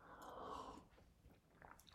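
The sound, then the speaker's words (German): A quiet sip of coffee, a soft, brief slurping hiss lasting under a second, then near silence ending in a sharp click. “Ein Schluck Kaffee zur Stärkung.”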